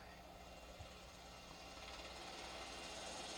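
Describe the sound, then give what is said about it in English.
A helicopter approaching in a video game gives a faint, steady rotor and engine drone with a low hum, holding evenly across the whole clip without clear breaks. “Here comes a helicopter.”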